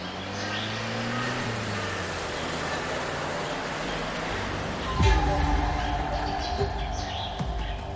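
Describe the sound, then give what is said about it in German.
Vehicle engine and road rumble while driving through dense Mexican jungle: a continuous low drone with a sudden louder jolt midway, then the ride carries on steadily. “Wir fahren in dem dichten mexikanischen Dschungel.”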